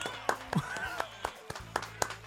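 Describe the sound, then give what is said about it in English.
A few scattered handclaps sound as applause for a Furby named Pinky, faint and irregular rather than a full ovation. “Round of applause, everyone, our studio audience, for Pinky.”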